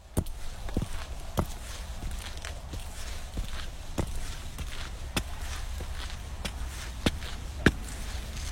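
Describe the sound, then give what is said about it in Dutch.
Footsteps climb a stairway up onto the IJsselmeer dike in Flevoland: a series of sharp, irregularly spaced steps over a steady low rumble. “Zo, en als je dan de trap op bent, dan kom je bovenop de IJsselmeerdijk.”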